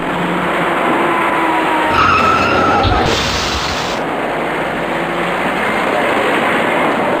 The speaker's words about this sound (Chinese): 这辆白色小客赶紧停住脚步，可他后面的一辆出租车却撞了上来，而后又有一辆深色小客追撞上出租车